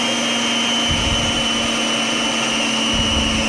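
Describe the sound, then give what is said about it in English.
An electric mixer whirring while making scone dough: a constant high motor whine with a rough, churning low rumble that surges briefly about a second in and again near the end. “it's the sound of scones being made”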